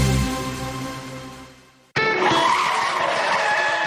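Tyres skid under hard braking. A fading tonal sound cuts off, then a harsh, broad screech bursts in abruptly and holds steady to the end.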